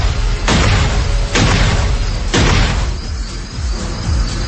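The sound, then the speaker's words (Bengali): Three revolver gunshots fired at a statue ring out as loud, booming bursts about a second apart, each with a trailing decay, and no voices are heard. “রিভলভারটা হাতে তুলে নেয়, মূর্তিটাকে লক্ষ্য করে কয়েকটা গুলি করে সে।”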